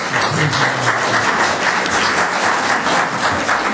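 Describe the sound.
A church audience applauds to welcome the associate pastor, a dense, even clapping that holds steady from start to finish without any pause.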